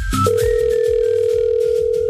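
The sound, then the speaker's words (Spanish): Outgoing phone call ringing on the line: after a brief rustle at the start, one steady, even tone holds unbroken and fairly loud for about two seconds. “Le está timbrando a Victoria.”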